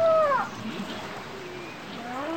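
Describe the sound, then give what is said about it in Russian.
Whale call: a high, tonal cry that slides downward, followed by softer, low, drawn-out moans that glide upward over a hissing background. “Ну... Догадался? Это же кит!”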